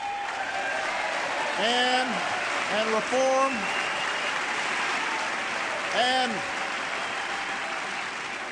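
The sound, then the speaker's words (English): Hesitant audience applause at a political speech, after lines about the Pentagon, no-bid contracts and the defense budget. Steady, moderate clapping runs throughout while a voice speaks briefly over it a few times. “You can hear the hesitant applause on some of those lines.”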